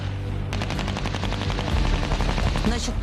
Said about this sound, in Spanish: Y aquí disparamos al igual que allá, pero nos alejamos aún más.